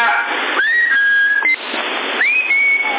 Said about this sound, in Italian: Che è avanti? Avanti il fischio.